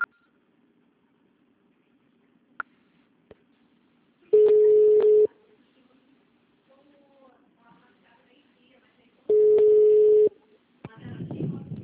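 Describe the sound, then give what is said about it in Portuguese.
A telephone voicemail beep signal sounds twice as a long, steady mid-pitched tone about a second long each time, several seconds apart. Quiet stretches with faint clicks separate the tones, and a soft burst of noise follows the second one. “Deixe seu recado. Você só será tarifado após o sinal.”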